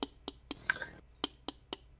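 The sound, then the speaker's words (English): Faint, sharp clinks of a fork striking inside a glass while cocktail ingredients are muddled, landing as a fairly regular series of light ticks with brief gaps. “fine cocktail crafting that they call muddling, which I do not do because I am just a schmuck who does not have a muddler. So I'm instead going to just smash it with a fork.”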